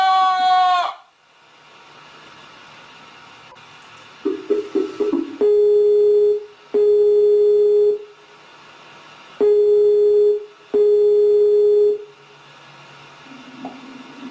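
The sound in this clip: Telephone busy tone after a call is hung up: a few clicks, then four steady mid-pitched beeps in two pairs, each lasting about a second, with quiet line hiss between them.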